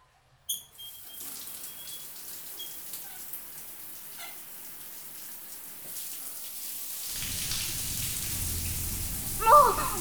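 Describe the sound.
Shower water runs while a boy's hair is washed in a bathroom: a faint patter builds into a steady, louder splashing rush in the second half, with a brief squeak near the end.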